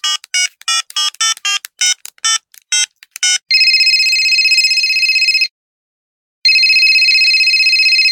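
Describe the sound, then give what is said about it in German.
An outgoing telephone call being placed: a rapid string of short, bright keypad beeps, then two long, high-pitched ringback tones separated by a second of silence. The sounds are loud and clear with no voices. “Wollen wir sie mal anrufen? Die rufen wir mal an.”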